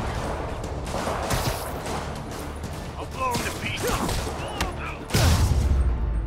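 Rocket explosions in an action video game set around a superhero's city, heard as a run of sharp blasts and crashes among busy game sounds, ending in a heavy, loud low boom.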